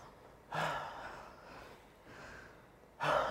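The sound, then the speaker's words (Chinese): A deep, audible breath drawn in and let out, beginning with a sharp inhale, then a long, softer exhale, and ending with another sudden intake of air, all faint and with no speech. “各位跟我一起深呼吸”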